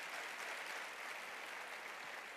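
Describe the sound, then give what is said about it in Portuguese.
An audience at a Sunday church gathering applauds, a steady, dense wash of clapping that stays even and fairly faint throughout, with no voices standing out. “Palmas para o pessoal do Grão de Mostarda, que estão aqui domingo após domingo.”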